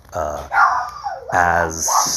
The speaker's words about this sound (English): you can hear the dog barking. Anyway, this week is toxic Christianity, and the dog won't shut up.